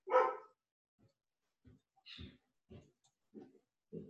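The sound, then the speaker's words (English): A dog barks faintly: one louder opening bark followed by several quieter, evenly spaced barks with short silences between them. “Excuse my dog barking.”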